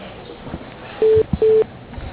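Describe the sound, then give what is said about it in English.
Two short, steady electronic beeps sound as a phone call is put through to voicemail. They are close together and loud, over a faint hiss on the telephone line, with no talking. “Let me transfer you, okay?”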